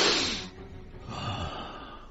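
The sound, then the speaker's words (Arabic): A deep breath drawn by an ailing man during a doctor's chest examination: a strong airy rush at the start that fades within half a second, followed by a softer, breathy exhale. “خذ نفسا عميقا يا مولاي.”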